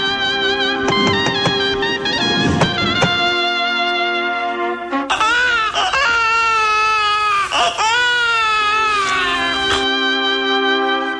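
A newborn baby boy, born within the last hours, crying loudly in several long, strained wails with brief gasps between, the cries wavering and breaking into shaky, piercing bursts.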